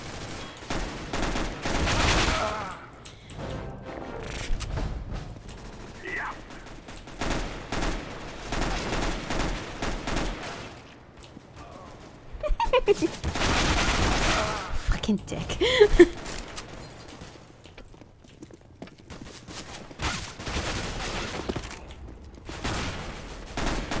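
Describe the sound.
Gunfire from a mounted gun in a video game: many rapid bursts of machine-gun fire, coming in uneven clusters with short lulls between them.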